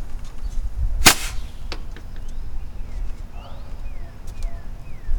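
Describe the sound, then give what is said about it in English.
A bottle rocket launches from a pipe on a back deck with a single sharp, loud crack, then fades into low, steady background noise. “Here we are at my bottle rocket launching station. I wonder what's going to happen next.”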